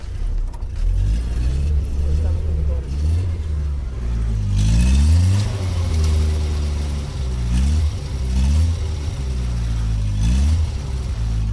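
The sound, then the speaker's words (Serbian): Engine of a Zastava 750 (Fića) car at a gathering outside the Museum of Yugoslavia. The small engine gives a loud, buzzing idle and is revved several times, its pitch climbing and dropping in repeated swells. “Verujem da su mnogi sa nostalgijom odslušali ovaj zvuk Fićinog motora.”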